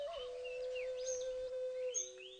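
Birds singing in a forest park, a clear sustained whistled note holding steady with faint chirps and brief trills scattered above it.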